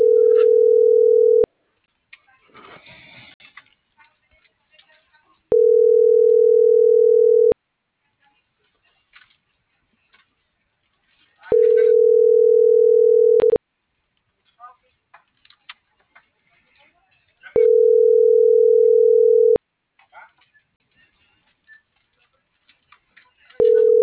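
Telephone tone while placing a call: a loud, steady mid-pitched beep about two seconds long repeats at regular intervals of roughly six seconds, with faint scattered noises in the quiet gaps.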